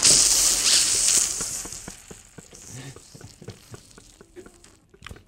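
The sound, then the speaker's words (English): A voice imitates bacon sizzling in a pan, producing a loud, steady hiss with crackling pops that gradually fades into scattered, fainter spits. “It's like bacon. Yeah, let me flip that over.”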